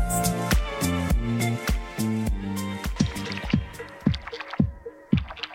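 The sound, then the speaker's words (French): Water dripping in a run of pitched, resonant plops over a tonal musical backing. The drops come steadily, then grow sparser and more distinct toward the end. “on dira de l'eau derrière. On dirait de l'eau.”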